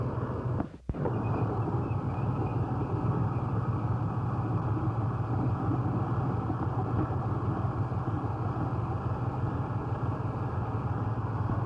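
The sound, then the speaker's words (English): Engine of a 52-ton tank running as it is moved, a steady, dense low rumble that drones on unbroken except for a brief dip near the start. “John, they're moving your tank right now.”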